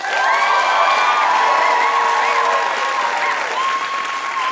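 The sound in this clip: A game show audience cheers and applauds as contestants are welcomed, a loud, continuous roar of clapping with whoops and shrill cheers that barely eases across the few seconds.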